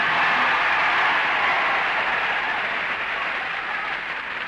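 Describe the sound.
Dense, sustained applause from a television talent show audience, whose clapping is gauged by a clap-a-meter to pick the winner, steady and loud throughout with no break.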